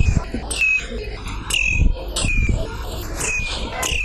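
Birds sing, with repeated short, bright chirps and quick falling whistled notes recurring every second or so over a steady low background rumble.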